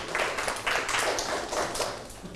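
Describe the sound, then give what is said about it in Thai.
A school class claps for a classmate who answered correctly, producing a handful of faint bursts of clapping in a loose, roughly regular rhythm. “โอเคปรบมือให้เพื่อนถูกต้องเลย”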